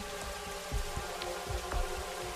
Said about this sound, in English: perhaps noticing that soft, gentle rain in the background